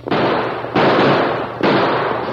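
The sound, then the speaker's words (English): Three gunshots fired at outlaws near a stagecoach on a hillside trail in a Western chase, each a loud sharp blast trailing into a long, noisy decay, evenly spaced. “Use your guns.”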